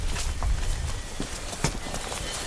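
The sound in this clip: Footsteps walk through a wild peat bog among blueberry plants: a few soft, dull, irregular steps with muffled low thuds and light rustling.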